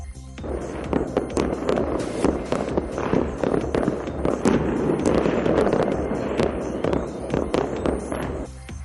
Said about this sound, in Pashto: پایتخت سنا کې خلکو په هوا کې ډزې کړي او خوشاله یې نمانځلي.